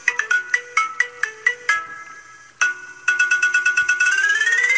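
A telephone ringing with a bright electronic ringtone: a melody of short, sharp repeated notes, a brief lull, then rapid pulsing tones that climb in pitch toward the end.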